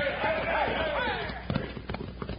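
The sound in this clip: Horses gallop away in a Western drama. A voice speaks at first, then quick, irregular hoofbeats take over, moderately loud.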